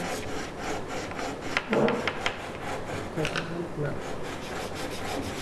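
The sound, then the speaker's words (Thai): Wood is sanded by hand with steady rubbing strokes, giving a continuous coarse rasping that swells a little with each push and pull. “ในขั้นตอนการขัดเนี่ยถ้าเรายืนน้ำหนักตัวเราจะทิ้งลงมาจะได้น้ำหนักแล้วก็จะเร็วกว่า”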